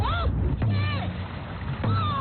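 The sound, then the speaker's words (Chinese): Dragon boat teams train on the Songhua River in Harbin, with splashing water and two sharp, drum-like hits. Voices sound over the steady wash of the paddling. “清晨6点的松花江哈尔滨段，鼓点铿锵，浪花飞溅，多支龙舟队开启了一天的训练。”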